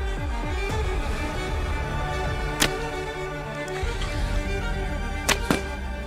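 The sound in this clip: Arrows shot from a homemade bow built from cheap hardware-store materials: sharp, brief string snaps stand out over steady background noise, one near the middle and a quick pair close together near the end.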